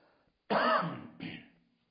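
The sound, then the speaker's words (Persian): Two coughs from someone giving a lecture, heard alone: a loud, harsh first burst and a shorter, softer second one, with silence on either side. “دوستان از دستگاهشون فاصله نگیرن، این سرفه های ما.”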